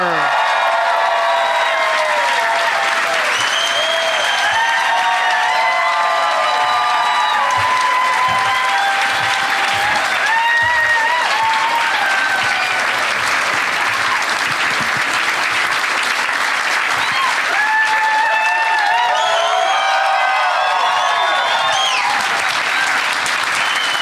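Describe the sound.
Sustained audience applause and cheering greet comedians Ali Sadiq, Nate Bargatze and Bert Kreischer on stage. Thick, steady clapping runs throughout, with excited voices and whoops rising over it in waves.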